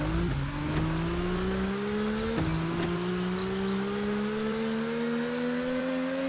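Race car engine in an audio video game at the start of a race: a steady, loud synthetic engine drone that climbs slowly in pitch, broken by two brief drops like gear shifts, with no talk.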